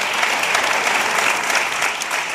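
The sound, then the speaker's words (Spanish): Applause for two hosts at the start of a conversation: a thick, continuous patter of many hands clapping, fairly loud and steady from start to finish with no voices over it. “Aplauso para los dos.”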